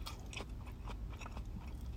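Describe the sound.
Someone chews a convenience-store vegetable mix sandwich, with faint, soft crunching bites and chewing sounds repeating irregularly over a brief stretch.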